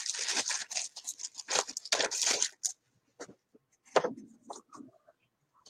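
Crinkly plastic rustles as a card saver sleeve is handled, with many quick crackling bursts packed densely through the first half before thinning to a few sparser crinkles.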